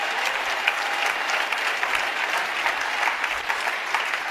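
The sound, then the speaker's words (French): Church audience applauding during a sermon to acclaim God, a steady, dense wash of clapping that holds at an even level for about four seconds. “Est-ce qu'on peut acclamer le Seigneur pour sa puissance?”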